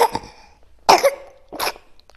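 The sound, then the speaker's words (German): A baby gives a few short, high-pitched coughs in separate bursts spaced about half a second apart, with quiet pauses between them. “Baby hat gehustet.”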